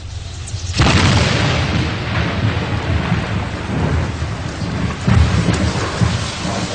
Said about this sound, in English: It's called rain. Sure looks like it's going to rain.